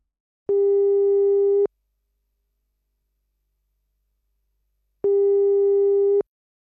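Telephone ringing tone heard while placing a call: two long, steady, mid-pitched beeps separated by a few seconds of silence.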